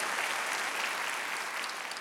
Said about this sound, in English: Would you just give them a round of applause and let them know that we love them?